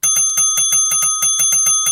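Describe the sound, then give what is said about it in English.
A bell dinged many times in quick, even succession. Each bright metallic strike rings over a sustained high tone, loud and alone. “And if it does, ding the bell 20 times.”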